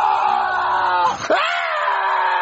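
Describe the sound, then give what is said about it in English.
A person screams loudly, a sustained high-pitched vocal cry that breaks off briefly in the middle and then resumes, holding steady to the end. “why are you screaming like that?”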